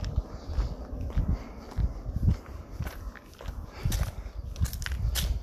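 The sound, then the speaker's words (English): Men's footsteps scuff along a road, with many faint, uneven steps in an irregular walking rhythm. “Just fellas walking in the road.”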